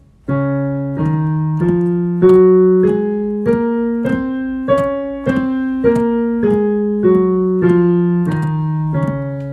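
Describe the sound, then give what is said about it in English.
A D flat major scale played on a sustained, bright-toned instrument, each note held for roughly half a second in a steady, even rhythm as the pitch climbs and then descends again. There are no voices. “The major scale begins on D flat. It sounds like this.”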